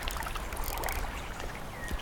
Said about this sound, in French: J'entends juste l'eau qui coule et je fais attention aux insectivoles, je regarde ce poisson qui est en train d'onduler sous l'eau